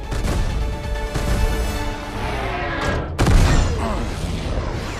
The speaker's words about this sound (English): watches turrets firing on a ship and swerves away